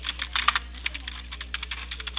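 Computer keyboard keys click as a message is typed, a quick irregular run of many light taps over a low steady hum.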